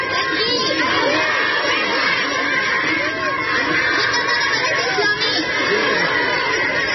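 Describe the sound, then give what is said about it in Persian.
A crowd in Kunduz shouts Allahu Akbar to welcome the Islamic Emirate. The dense, raised voices cheer and shout over one another in a steady, loud wall of sound. “در گوشه ای از شهر قندوز نیز افرادی با استقبال از دولت موسوم به امارت اسلامی صدای الله اکبر سر دادند.”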